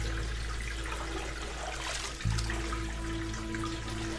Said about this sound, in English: See, honey? Rubber Ducky won't go down the drain, will he? No. And why is that? He's too big. He won't fit.